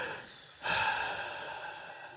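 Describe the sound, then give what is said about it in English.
A deep breath, taken while people are asked to relax: after a short quiet lead-in, a long, airy breath sound swells up and holds steadily to the end. “So before we write anything, let's just all take a deep breath right now.”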